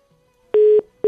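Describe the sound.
Busy tone on a phone-in line after the caller was cut off: loud steady electronic beeps, one full beep and the start of a second, with nothing else heard.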